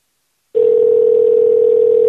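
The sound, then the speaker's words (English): A telephone tone heard while calling someone starts abruptly after a short silence and then holds as a loud, steady, unbroken hum at one pitch. “Oh, God. Please answer your phone.”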